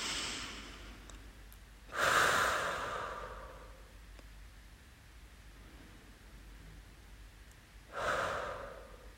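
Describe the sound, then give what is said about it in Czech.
Deep breaths taken as a breathing exercise: two slow, airy breaths about six seconds apart, soft and breathy, with a quiet steady hiss in between and no talk. “takže já si tady udělám sama pro sebe takový dechový cvičení.”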